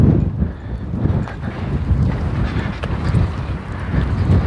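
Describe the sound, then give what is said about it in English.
Wind buffeting a microphone while someone walks along a sidewalk outdoors: a continuous low, rumbling roar that swells and dips in gusts, with no speech. “Wind is right in my face.”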